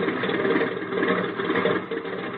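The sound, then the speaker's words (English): An airplane engine idles as the plane taxis, a steady, moderately loud droning hum with slight fluttering pulses and no talk. “you're turning the plane around. Certainly. Now we taxi.”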